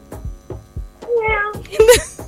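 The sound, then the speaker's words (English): Cat meows played by a talking toy: two short, bright meows that come after a few low thumps. “The Pickup Says, meow like a cat.”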